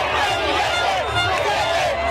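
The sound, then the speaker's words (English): Crowd cheering in the streets of Buenos Aires for Javier Milei: a dense, continuous roar of many voices that holds steady throughout, with no single voice standing out. “Cheering in the streets of Buenos Aires for Javier Milei, who's drawn comparisons to Donald Trump.”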